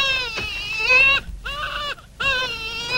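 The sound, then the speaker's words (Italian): A three-month-old baby, kept in a basket, cries in three high-pitched wailing bursts separated by short pauses. “Per carità, non fatelo piangere. Calmati, calmati. Il tuo papà è qui, non piangere.”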